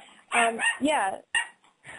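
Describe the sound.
A dog barks in a few quick, high yelping bursts with short gaps between them, heard faintly among low voices.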